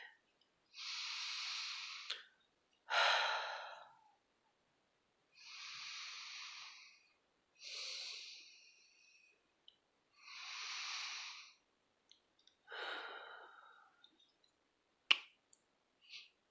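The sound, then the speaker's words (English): Slow, relaxed breathing: several soft, airy breaths, each lasting about a second, with silent gaps between them. The breaths are quiet and there is no talk. “Here, let's breathe together.”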